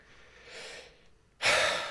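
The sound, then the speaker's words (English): Deep breathing during a guided centering exercise: a soft, airy breath followed by a louder, fuller rush of breath, with no talking. “take a couple of deep breaths, breathing through the heart”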